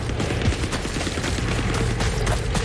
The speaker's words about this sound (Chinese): 你们别管我，先把渡口的机枪打掉。